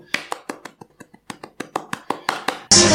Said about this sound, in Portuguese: Bate palma aí, gente.